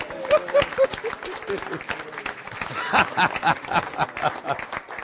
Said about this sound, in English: Come on, let's give the Lord a great clap,